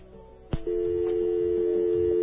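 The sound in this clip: A telephone line signal: a sharp click, then a steady, unbroken electronic tone that holds at even loudness to the end.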